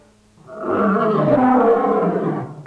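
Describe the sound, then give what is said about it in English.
A lion roars at the zoo: one loud, throaty roar that swells quickly, holds for about two seconds and eases off slightly at the end. “Number one is lion.”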